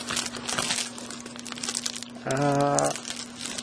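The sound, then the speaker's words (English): Crinkling and rustling of plastic wrapping as a package is opened, a quiet, scratchy, continuous crackle with no clear pauses. “I'm going to open up a package”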